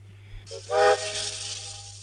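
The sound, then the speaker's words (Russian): A train jerks into motion with a steam whistle and hissing steam. A brief whistle blast sounds over a rising rush of hiss that carries on steadily to the end, above a low constant hum. “Поезд дергает.”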